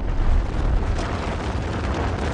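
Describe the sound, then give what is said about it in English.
Explosion blasting a mountain apart: a heavy, continuous low rumble with a rough roaring texture that holds steady for the whole moment, with no quiet gaps. “A mountain is blasted apart”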